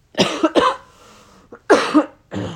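Harsh coughing from a person whose lungs are clearing, heard as a few loud bursts in two clusters separated by a short quieter pause, with no talking.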